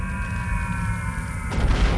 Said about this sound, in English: that is a critical clue. That explosion. I don't know what it is, but it's helpful